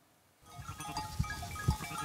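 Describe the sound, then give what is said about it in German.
Rough-wool Pomeranian landrace sheep bleat on a farm. A short quiet start gives way to moderately faint, wavering calls, with two dull low thumps among them. “Seine rauwolligen pommerschen Landschafe sollen auf eine andere Weide.”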